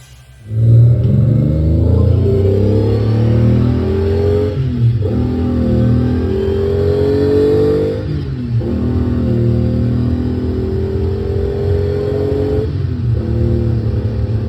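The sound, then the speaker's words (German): Car engine revving and accelerating hard, a loud throaty roar whose pitch climbs in stages, broken by three short dips as the driver keeps pushing the throttle. “Bei so einer Geräuschkulisse kann man davon ausgehen, dass es sich hier um keine gewöhnliche Autofahrt handelt. Hier wird nicht einfach von A nach B gefahren.”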